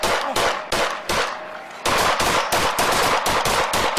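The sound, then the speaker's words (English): Police gunfire in a shooting incident: many sharp, loud shots fired in rapid succession, with a brief pause after the first few before a denser, steady volley continues to the end. “20 shots fired in 5.0 seconds.”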